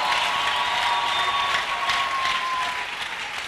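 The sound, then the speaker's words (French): A church audience applauds during a sermon, a sustained, dense, even roar of many clapping hands that holds steady for the whole stretch. “On acclame très bien le Seigneur.”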